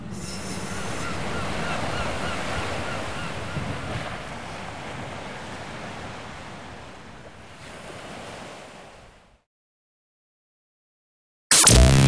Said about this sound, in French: Il y a la mer. Tu vois la mer